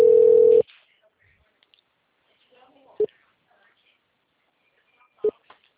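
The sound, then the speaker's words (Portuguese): A telephone call being placed: a steady mid-pitched tone lasts about half a second, followed by two brief tone pips spaced a couple of seconds apart, with faint clicks and rustles in the quiet between. “Não, tá fazendo a ligação, né?”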